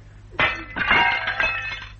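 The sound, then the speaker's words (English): A glass panel is smashed with a sharp crash, and a bright, tinkling spill of breaking shards follows for over a second before fading. “Break the glass panel, then. Here. Yes, this thing will do it.”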